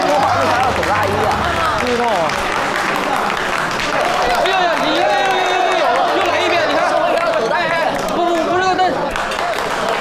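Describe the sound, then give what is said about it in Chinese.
An audience applauds to welcome four directors, with steady, dense clapping and crowd noise throughout and voices mixed in. “让我们以热烈的掌声隆重的欢迎四位导演。”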